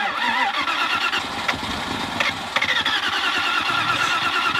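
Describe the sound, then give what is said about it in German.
A car engine cranks over without catching, its starter churning in a steady, rapid rhythm that runs loud and alone from start to end. “Die Karre will nicht anspringen. Oh Mann, immer dasselbe. Zündung oder kriegt er keinen Sprit?”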